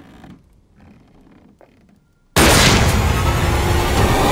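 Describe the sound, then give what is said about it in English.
A gunshot in the film Ready or Not: after about two seconds of quiet, low rumbling, a single abrupt, loud blast hits and the sound stays loud and dense until the end. “Oh, Jesus. You shot the maid.”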